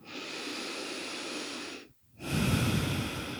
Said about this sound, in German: Und dann atme tiefer ein und aus.